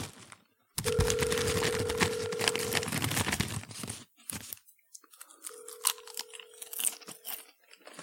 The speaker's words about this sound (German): Ihr merkt wahrscheinlich, dass ich gerade etwas Leckeres esse. Und zwar Popcorn.